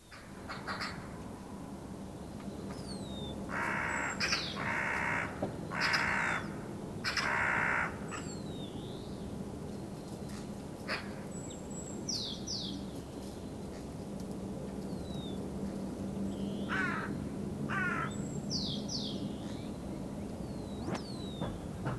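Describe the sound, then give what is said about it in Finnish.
Harsh, rattling chatter of a magpie comes in a few loud bursts early on and once more later. Thin whistled bird notes and a steady low background hum continue between them. “Harakka.”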